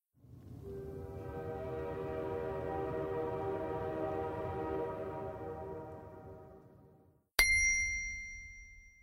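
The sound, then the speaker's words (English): A train swells into a loud, sustained horn-like drone with a low rumble beneath, slowly fading away, then an abrupt bright bell-like ding rings out and decays. “Train.”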